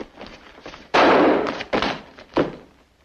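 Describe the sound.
A gunshot fired at a bulletproof uniform lands as a loud, sharp blast, followed by two smaller thudding impacts in quick succession.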